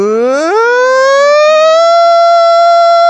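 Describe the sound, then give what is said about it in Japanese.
A voice imitates a stadium siren with a single loud, pure tone that slides quickly upward from low to high in the first half-second, then holds a long, steady high pitch that creeps up faintly. “なんか甲子園のサイレンみたいなうーみたいな。ああいう感じで、低いところから高いところ、”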